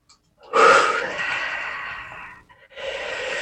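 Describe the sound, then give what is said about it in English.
A deep breath drawn as a long, airy rush for about two seconds, then a short pause before another breath begins and carries on to the end. “Nice deep breath.”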